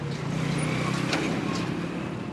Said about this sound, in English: Trailer trucks shudder on their way to the base, passing Syed Khalid and Mahmoud Tahir's vegetable stand.